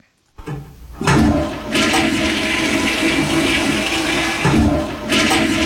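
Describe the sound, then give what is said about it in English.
A toilet flushes with a loud, sustained rush and gurgle of water that swells early on and keeps surging for several seconds, with no voices. “Hang on. Was that two flushes?”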